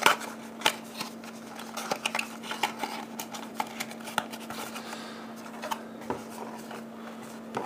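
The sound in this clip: Cardboard crinkling and creasing as a cardboard box is folded up, many small crisp taps, scrapes and flicks scattered irregularly over a faint steady hum.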